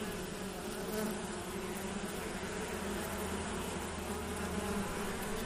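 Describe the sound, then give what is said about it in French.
A honeybee colony buzzes inside an opened beehive, a dense, steady drone of many wings that stays even and continuous throughout, with no voices. “C'est sûr que c'est impressionnant la première fois qu'on euh, ouvre une ruche. Surtout quand c'est une belle colonie, ça grouille d'abeilles.”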